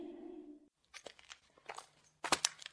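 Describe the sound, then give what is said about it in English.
Crinkling and crumpling of foil Pop-Tart wrappers: a run of irregular crackly rustles and crunches that grows louder and denser toward the end. “What's that in your hand? Foil wrappers. Like the kind you find wrapped around... Pop-Tarts?”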